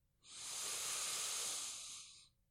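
One deep inhale during a guided breathing exercise, a long, smooth, airy hiss lasting about two seconds that swells quickly, holds steady and then tapers off, with no talk over it.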